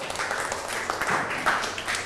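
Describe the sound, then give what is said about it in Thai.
Students in a classroom clap for a classmate who has just finished a presentation. The applause is brief and faint, a soft patter of many hands. “นั่งลงปรบมือให้กับเพื่อนหน่อยครับ”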